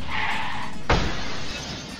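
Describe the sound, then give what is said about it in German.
Crash sound effect of a white sports car ramming the side of a black Trans Am: a steady roaring rush is broken by one sudden heavy smash, and the roar carries on afterward before easing slightly. “Der weiße Sportwagen beschleunigt und fährt mit voller Kraft in Kits Seite. Der schwarze Trans Am versucht auszuweichen, wird aber weggeschleudert.”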